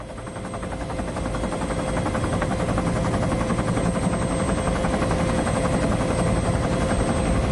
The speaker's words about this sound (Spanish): Un helicóptero sobrevuela el pueblo.